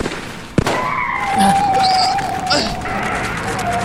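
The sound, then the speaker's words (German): A car skids after a tyre is shot out: a sharp bang, then a long high squeal of rubber sliding on the road, holding a fairly steady pitch before fading. “Die haben mir den Reifen zerschossen!”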